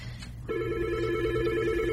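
A telephone rings with an incoming call in a studio. After a brief low hum, a steady electronic ring tone starts and holds loudly to the end, with no talk over it.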